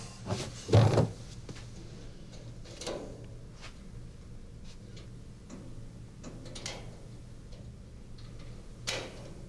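Metallic clicks and rattling as a special Stasi-built tool is fitted into a cabinet lock. One louder clatter comes near the start, followed by a few faint ticks and scrapes.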